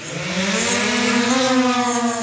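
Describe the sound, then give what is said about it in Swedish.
A package-delivery drone lifting off on a test flight in Dorotea, Sweden, gives a loud, sustained motor whir with layered tonal harmonics that holds steady throughout, with no voices. “Piloten Axel Brandtzæg skickar iväg drönaren med ett knapptryck och följer färden på datorskärmen med hjälp av karta och drönarens kamera.”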